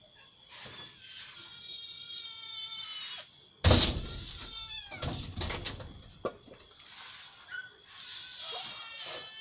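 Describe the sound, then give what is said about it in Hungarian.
A cat meows repeatedly, with high, drawn-out wailing cries, broken midway by a single loud, sharp thump, then more meows that trail off more faintly. “Jaj, csak nyávok. Gyere, mindig fel a virágomra, vadd marha! Gyere, cica! Cica!”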